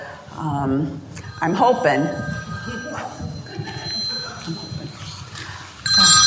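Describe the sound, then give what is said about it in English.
A mobile phone rings during a talk, its thin, high electronic ringtone sounding under and between people's voices. “Oh, I'm so sorry. I didn't mean to have my phone on.”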